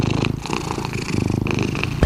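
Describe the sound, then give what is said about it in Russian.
A cat purring, a low, steady, rhythmic rumble that pulses continuously and evenly for about two seconds, fairly loud and heard alone without any talk. “Сейчас мы проведем мурчательную терапию. Мурчательная терапия идет.”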